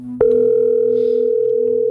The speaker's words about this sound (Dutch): We gaan bellen met iemand die een suggestie heeft gedaan.